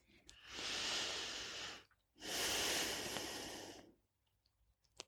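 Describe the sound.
Slow breathing during a guided prayer: two long, airy breaths, each lasting well over a second, separated by a short pause and followed by near quiet.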